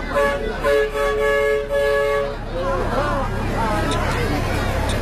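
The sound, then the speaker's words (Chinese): Horn of a vintage small mountain train arriving: a few sustained, harmonic toots, followed by a crowd of people chattering. “大概等了15分钟的时间，期待已久的小火车终于出现了。 好复古的一个火车啊。”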